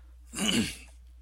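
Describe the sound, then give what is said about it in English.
A single rough cough, a brief throaty burst of about half a second that stands out clearly against a quiet background, with no talk around it. “excuse me, I'm just going to cough,”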